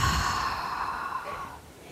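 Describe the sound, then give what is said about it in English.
A deep breath is let out through the mouth during a guided breathing exercise: one long, airy exhale, strongest at the start and slowly fading over about two seconds. “So one more inhale and exhaling through your mouth.”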